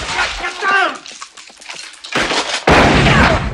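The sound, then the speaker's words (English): Automatic assault rifle fire in an audio drama: after a voice speaks, a short burst cracks out, then a sustained loud volley of rapid shots fills the end. “Mark uses his automatic assault rifle. A man bursts in. Mark guns him down.”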